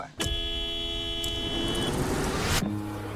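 A car horn sounds once, a loud, steady honk lasting a couple of seconds over low road noise before cutting off abruptly.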